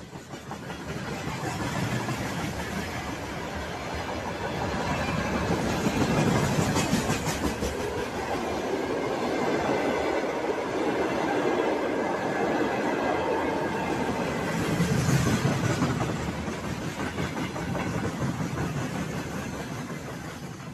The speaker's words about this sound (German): Das sind Güterwaggons, auf denen Panzer, Haubitzen, Raketenwerfer und allerlei militärisches Gerät aus Zentralrussland